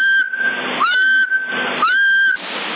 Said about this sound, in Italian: Con i fischi già arrivo a... Così dovrei pompare un po' di più col fischio.